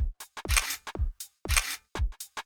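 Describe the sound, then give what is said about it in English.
A camera shutter firing for a selfie: a rapid series of sharp mechanical clicks and whirring bursts in quick succession, loud and alone. “There, I've just totally posted my selfie.”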